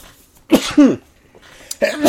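A sneeze in a dusty garage: a few sharp, breathy bursts, two close together near the start and another toward the end, with no talking.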